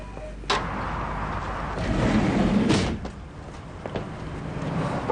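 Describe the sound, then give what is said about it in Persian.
A door closing: a few dull thumps and knocks over a steady wash of background noise, with no clear talk. “درو ببندید.”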